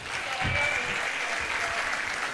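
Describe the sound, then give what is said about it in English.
Sustained audience applause fills the room at a formal ceremony as the chairman is invited up for opening remarks. It is dense, even clapping that holds steady at a fairly loud level throughout, with no voices standing out. “Continue clapping if you want blessings to also follow you today. Continue clapping as the chairman comes for his opening remarks.”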